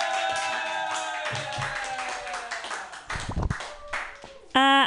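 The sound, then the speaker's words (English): Audience clapping at a comedy open mic night as a comedian is welcomed to the stage: a dense patter of hand claps mixed with sustained tonal music and voices, ending in a brief bright harmonic tone. “Put your hands together and clap them in a wild slappy-like motion for Nicole Calasich.”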